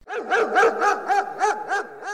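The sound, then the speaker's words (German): A large, angry guard dog barking at a fence, a rapid, steady series of loud, full barks with no voices. “In dem Moment, wo sie über den Zaun klettern wollten, kam ein Hund. Und nicht irgendein Hund, sondern ein großer, wütender Wachhund.”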